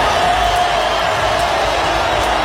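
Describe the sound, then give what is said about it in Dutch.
Stadium crowd at a World Cup football match in Miami welcoming Brazil's star player back from injury, a loud, dense and steady roar of applause and cheering without pause. “Applaus in Miami.”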